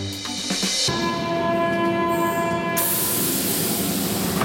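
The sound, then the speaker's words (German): Berlin underground train at the Platz der Luftbrücke U-Bahn station in Tempelhof: a loud, steady rumbling roar with sustained tonal whine and hissing, a sharp change in pitch early on, continuous throughout without talk. “Ihr hört das hier im Hintergrund. Wir sind mit der U-Bahn bis Platz der Luftbrücke gefahren”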